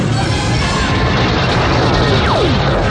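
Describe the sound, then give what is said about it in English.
Laser turrets fire from a spaceship in a sci-fi drama: a loud, continuous crashing roar with a whistling tone that dives sharply downward in pitch near the end. “Activate the laser turrets, Mr. Foom. Those red switches.”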